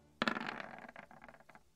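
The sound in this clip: Dice rolling and clattering on a table, one die knocking into another: a sharp opening clatter, then a quick run of lighter tumbling clicks that thin out and stop within about a second and a half.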